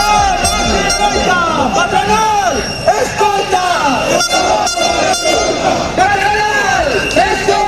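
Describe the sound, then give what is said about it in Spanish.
More than 2,000 people march through central Vigo on a metal sector strike day, blaring air horns and shrill whistles over loud crowd shouting and chatter. The noise is continuous and dense, with horn blasts sounding repeatedly. “En Vigo, este fue el sonido de las últimas horas.”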